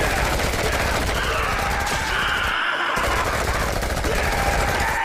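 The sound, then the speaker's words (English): Gunfire aimed at a charging raptor dinosaur in a film scene: a dense, unbroken stream of rapid shots, loud and steady from start to finish. “Quaid opens fire on the dinosaur as it charges.”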